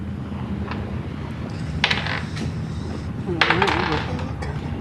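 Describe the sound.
Players roll dice for initiative in a tabletop role-playing game, making two short clattering bursts on a hard surface. People talk around the rolls.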